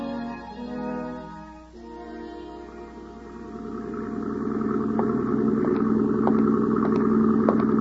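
Engine of a motor launch running on the water at night, a steady mid-pitched droning hum that grows louder and fuller partway through and then holds, with no voices.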